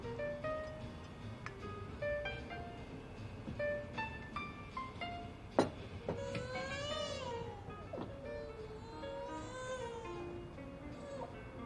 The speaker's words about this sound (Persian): میدونم سر صداش خیلی زیاده، خیلی گرمه، گریش بند نمیاد.